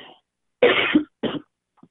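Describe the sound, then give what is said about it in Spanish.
A person coughing twice, a longer harsh cough followed by a shorter one, with faint breathy sounds before and after and no talk. “El otoño viene siempre con tos.”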